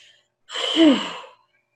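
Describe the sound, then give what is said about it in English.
A single deep breath during a guided relaxation exercise, swelling and fading over about a second with a soft, voiced, sigh-like tone, alone in otherwise quiet surroundings. “Just take a nice deep breath in, nice breath out.”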